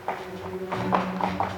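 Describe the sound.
Horse trotting across a wooden bridge with gaps between its planks: a few hollow, clopping hoofbeats over a low humming drone.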